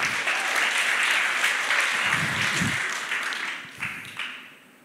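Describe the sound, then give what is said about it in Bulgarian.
Church audience applauding: thick, sustained clapping at full strength that thins out over the last second or so into a few scattered final claps. “Ти си гениален, браво, респект, аплауз за всички тези хора. Толкова е мъдро да бъдеш атист. Не, не, нека аплодираме, наистина.”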